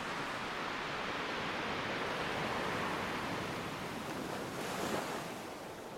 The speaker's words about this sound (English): Each wave rolls in, one after the other.